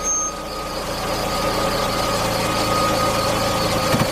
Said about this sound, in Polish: Gdy wracałem stamtąd po raz drugi, na ulicy zatrzymał się samochód.